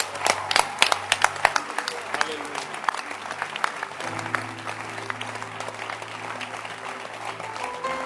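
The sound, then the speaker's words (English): A church audience claps to celebrate, a full and steady wash of applause that runs the whole way through. Sharper individual claps stand out early, and a low sustained tone sits beneath the clapping. “Clap your hands and celebrate this this this this great blessing. Clap your hands for shepherds.”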